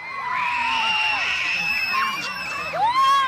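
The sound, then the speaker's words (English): School kids shriek, whoop and yell in the dark during a total solar eclipse in August 2017, a dense, continuous crowd of high voices with overlapping screams that swell louder near the end. “So this is the sound of a bunch of school kids running around in the dark during a total solar eclipse all the way back in August of 2017.”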